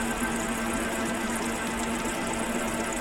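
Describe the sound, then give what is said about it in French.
A woodworking jointer-planer runs at 7000 rpm, with a four-knife cutterhead, a feed table and a 50 cm planing width. It gives a constant, steady whirring hum with a fixed tonal whine and no speech. “La machine, elle tourne à 7000 tours en minute. On lui reconnaît une largeur de dégauchissage de 50 cm.”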